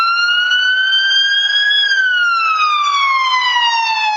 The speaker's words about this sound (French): l'effet Doppler, c'est celui qui est responsable de l'effet auditif quand une ambulance passe dans la rue.